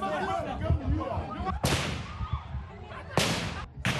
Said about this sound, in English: prison officials fired into the air to disperse the growing crowd